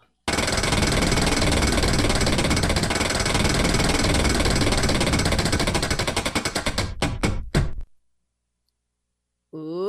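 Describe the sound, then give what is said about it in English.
A betting-game prize wheel spins, its pointer clicking in a rapid, loud stream that gradually slows into widely spaced ticks before stopping, followed by near silence. “It's time to spin the Wheel of Bets.”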